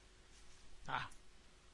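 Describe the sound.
A computer keyboard key, F5, is pressed once, making a single short, sharp click that stands out faintly against a quiet background.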